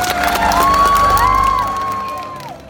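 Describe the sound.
Audience cheering at the Hall of Presidents, a loud burst of shouts and clapping from many people with a sustained whooping voice riding on top, easing off toward the end.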